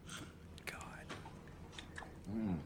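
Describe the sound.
Mouth sounds of eating vanilla ice cream off an upside-down spoon: soft, wet smacking and clicking at low level, with a brief voiced sound near the end.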